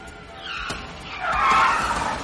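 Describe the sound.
Tires squeal as police cars arrive and skid to a stop. A rough scraping screech swells loudest in the second half over a low engine rumble.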